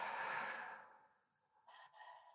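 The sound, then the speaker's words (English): A deep breath during a guided breathing exercise, heard mainly as one slow, soft, airy exhalation that fades away, followed by a brief faint sound. “Big breath in. Breath out.”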